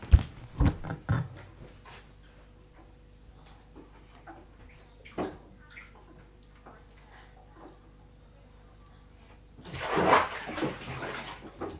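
A child is washed with soap in a bathtub. Faint water sloshing and light splashes are scattered throughout, with a few sharper knocks early on and a louder rush of splashing water near the end.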